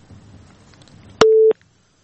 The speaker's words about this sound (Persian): بله، خب تماس اینا قطع شد